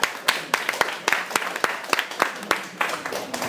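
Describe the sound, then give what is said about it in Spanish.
Audience applause at a comics fan talk after a trivia answer, made of many sharp hand claps in an uneven, sparse rhythm over steady background noise. “Un aplauso.”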